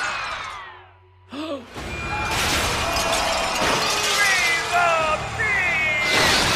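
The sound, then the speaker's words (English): Grinding, shattering crunch as an alien spaceship slowly crushes a statue. A brief lull gives way to a sustained loud smash of breaking debris, laced with high squealing creaks that rise and fall. “The ship slowly crushes the statue.”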